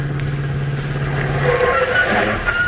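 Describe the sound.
A car drives up and arrives, heard as a steady, low engine rumble with continuous road noise and no voices.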